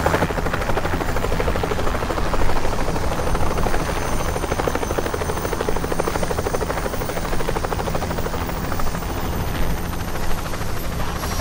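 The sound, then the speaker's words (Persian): A helicopter waiting for takeoff gives a loud, steady drone of rotor and engine that stays even and unbroken throughout, with no voices. “هلیکوپتر آماده است رئیس”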